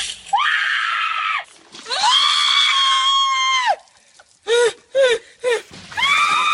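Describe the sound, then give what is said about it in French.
People scream as buckets of ice water are poured over their heads during the Ice Bucket Challenge. Loud, high-pitched shrieks: two long drawn-out cries, then several short sharp yelps and another rising scream. “Des gens qui hurlaient en se renversant des seaux d'eau glacée sur la tête. L'Ice Bucket Challenge, le défi du seau d'eau glacée.”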